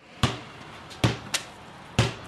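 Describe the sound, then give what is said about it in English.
Basketballs bouncing as 7th and 8th graders at Rutland Town School practice bounce passes, a few sharp, hollow thuds at uneven intervals with a fainter bounce or two between them, and no voices. “7th and 8th graders at Rutland Town School are bounce passing and showing off their basketball moves”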